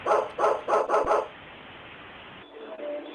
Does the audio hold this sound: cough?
no